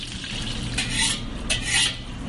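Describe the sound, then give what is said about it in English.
Crab meat stirred with scrambled eggs, garlic and onions in a pan gives a few scraping utensil strokes over a soft, steady sizzle, with no voices. “Those are eggs scrambled that we go in there so it's soften up everything. And then we add the crab meat. This way the crab meat is cooked and it got mixed in with the garlic and onions.”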